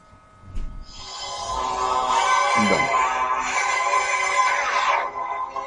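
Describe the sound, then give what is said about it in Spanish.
Phone ringing with an incoming call, a steady, bright electronic ringtone with layered harmonic tones. It swells in after a soft click, holds at moderate loudness for about four seconds, then cuts off abruptly. “Vamos a ver, tengo una llamada por aquí.”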